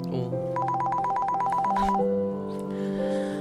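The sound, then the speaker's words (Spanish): A phone ringtone sounds for an incoming call: a rapid, repeating run of bright electronic tones, followed by a lower sustained tone pattern, loud and alone. “Entre tanto, me llega una llamada de Joel.”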